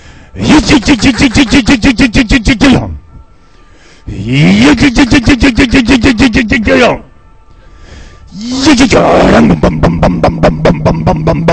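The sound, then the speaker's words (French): A voice imitates a flying saucer starting up with three long bursts of rapid, buzzing vocal pulses. The second burst begins with a rising pitch, and short pauses separate the bursts. “Je vais faire démarrer la soucoupe volante, ok.”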